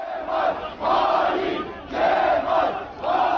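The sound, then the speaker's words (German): Angry CHP supporters chant in unison in the evening outside the party headquarters in Ankara after a court ruling, the crowd repeating a loud rhythmic phrase in swelling bursts with short pauses between. “Verräter Kemal rufen CHP-Anhängerinnen und Anhänger am Abend vor der Parteizentrale in Ankara.”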